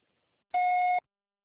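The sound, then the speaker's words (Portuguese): A single electronic voicemail beep: a clean, steady mid-pitched tone about half a second long that starts and stops abruptly, alone in silence. “Após sinal, deixe o seu recado.”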